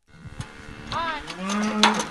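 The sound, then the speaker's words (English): Black Angus cows moo on a farm near Henrietta, Oklahoma, as the herd streams into a pasture. A long, low, drawn-out moo rises out of faint rustling and holds for about a second. “Black Angus cows stream by into the pasture, swatting away flies.”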